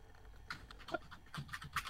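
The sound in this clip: Quiet computer keyboard typing in a chat-messaging video game, a short run of soft, irregular key clicks with no voices.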